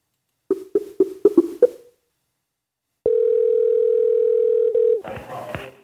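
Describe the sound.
A steady telephone dial tone hums for about two seconds after a call is disconnected. It follows a rapid series of short beeps and gives way to a burst of noise at the end.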